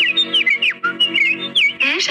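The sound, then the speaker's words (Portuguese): Birds chirp and whistle in a rapid string of high, warbling calls. They sound over steady sustained musical tones, fairly loud throughout. “Os passarinhos estão deixando ele na dúvida. Estão atrapalhando, é. Os passarinhos estão atrapalhando, cara.”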